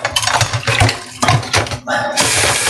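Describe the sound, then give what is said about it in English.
Water runs in a kitchen sink while spoons are washed. The rushing, hissing flow is broken by a few brief gaps. “unfortunately, I put my spoons in the sink, so we're just going to go ahead and wash it”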